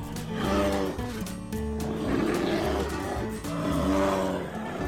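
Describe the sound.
A sleepy bear bellows in long, low, groaning roars. The drawn-out rumbling moans swell and ebb with brief dips and stay loud throughout.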